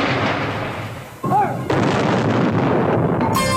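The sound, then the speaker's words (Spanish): Artillery cannons fired on a queen's order for a film camera: a couple of heavy booming blasts over a continuous rough, noisy rumble. “El enviado de los Lumière acudió entonces a la reina y esta dio la orden de disparar los cañones para el cine”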